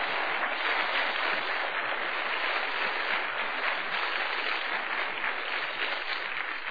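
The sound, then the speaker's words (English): Congregation at a preaching service clapping: dense, steady applause that runs unbroken for the whole stretch, fairly faint and even in level, with no voices standing out. “go ahead and clap if you want to, because I know it's true.”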